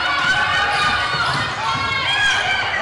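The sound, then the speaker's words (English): A basketball being dribbled during a fast-paced game, its bounces mixed into constant crowd noise and squeaking sneakers on the court floor. “Tries dribbling through again.”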